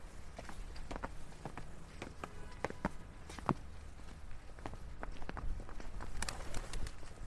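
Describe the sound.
Footsteps walk through a gateway and up steps near busy Shaftesbury Avenue in London, many steady treads over a constant rumble of traffic.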